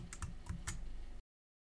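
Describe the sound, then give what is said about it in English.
Typing on a computer keyboard while entering a list of items into a table in a document: a few crisp, quick keystrokes, then silence. “We'll now use the column on the right to type in our list of items with one item per cell.”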